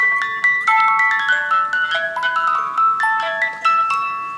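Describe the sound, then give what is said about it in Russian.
A shop-bought music box, cranked while resting on wood, plays a bright tinkling melody of many plucked metal-comb notes at a steady moderate tempo, with no voices. “Так это шкатулка с магазина. Если ее крутить без дерева, так еле слышно. Кладем на дерево.”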